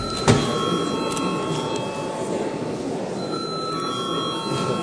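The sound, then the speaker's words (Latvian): An electric bell rings in the Latvian parliament chamber: a steady, bright ringing tone that holds through the whole stretch, opening with a short sharp click. “Tātad lūdzu zvanu.”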